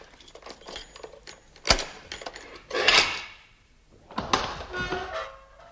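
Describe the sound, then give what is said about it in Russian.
Keys jangling as they are lifted from sleeping guards in a staged scene: a dull thud, then bursts of metallic jingling, the last one longer and rattling on for more than a second. “Из сундука вылезает Зензивер, осторожно подходит к часовым и берет у них ключи.”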